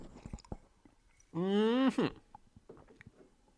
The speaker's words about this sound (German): Ich nehme nur einen Schluck von meinem Kaffee.